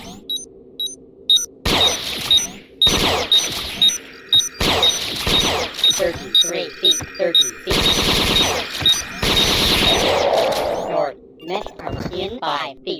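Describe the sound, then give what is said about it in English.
Rapid bursts of gunfire from a gun turret in a video game, loud, sharp, crackling volleys separated by short pauses, with a steady high electronic tone running underneath. “No, because the turret always appears there.”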